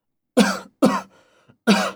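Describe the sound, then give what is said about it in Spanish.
Three harsh coughs from a person with a cough, short loud bursts, the first two close together and the third after a brief pause. “No. Solo tengo tos.”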